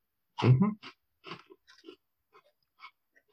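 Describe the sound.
Someone chews a store-bought cardamom-flavoured cookie. A brief low murmur is followed by a few soft, scattered crunching bites that grow fainter and sparser over a few seconds.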